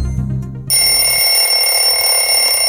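A telephone rings: a brief low sound opens, then a loud, steady, high-pitched electronic bell tone holds unbroken to the end, with no voices.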